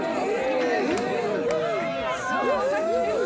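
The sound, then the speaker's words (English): Crowd of revelers entering a masked ball: many overlapping voices chatter and murmur in a steady, dense hubbub that holds at an even level throughout. “The revelers are entering. Brother, make good room.”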